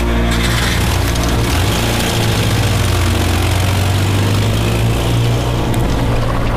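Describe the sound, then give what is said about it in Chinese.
A car engine runs loudly as the car starts off. The rumble is dense and low and holds steady and unbroken, with no talk over it. “开车。”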